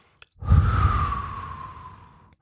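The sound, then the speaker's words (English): A long, forceful breath blown out during a guided breathing exercise. It is loud at first and tapers off over about two seconds, with a thin whistling tone running through the rush of air. “Deep breath in, breath out, blowing it out with a little force and imagining emptying the content of the mind at the same time.”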